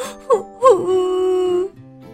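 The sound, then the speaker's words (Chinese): Franklin, a young turtle, starts to cry: a voice imitating him gives two short sobbing catches, then a long, sustained wailing moan that holds steady before breaking off. “说着呀，富兰克林哭了起来。”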